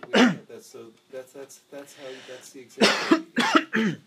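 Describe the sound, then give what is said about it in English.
Harsh coughing from a person choking on orange juice, several sharp bursts breaking up a stretch of talk. “the orange juice is making me choke”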